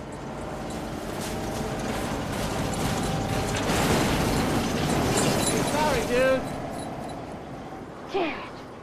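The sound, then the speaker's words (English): Mechanical grinding and clanking of a snowplow pushing mounds of snow onto a freshly cleared driveway, a busy churning texture that swells midway, with a few short squeaks near the end. “A snowplow deposits mounds of snow across his freshly cleared drive.”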